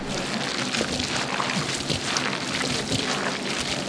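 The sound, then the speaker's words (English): Wet squish of mayo-dressed lobster salad being worked for lobster rolls: a steady, soft, crackly squelching texture that runs the whole time without a break. No voices are heard. “That's the squish. That's the squish. What does the wrong squish sound like? The wrong squish is you don't get the squish. It's very light. Or it's just too wet because you put too much mayo in.”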